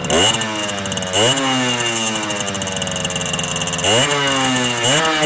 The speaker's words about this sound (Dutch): Zullen we dan ook even tweetakten? Oh ja, de hele tijd. Ja, trap hem aan.